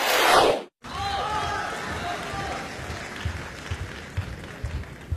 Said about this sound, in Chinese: 感谢您的掌声鼓励。